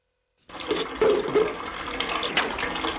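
Water gushes from a household tap after a water pump is switched on, starting abruptly as a steady hissing rush that keeps flowing evenly to the end.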